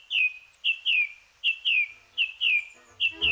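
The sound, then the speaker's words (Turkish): Birds sing at dawn in woodland: many short, bright chirps, each sweeping down in pitch, repeated in quick pairs with a steady rhythm and no voices. “Şafak vakti kuşları dinlemek için çevrenizdeki ormanlık alana gidin.”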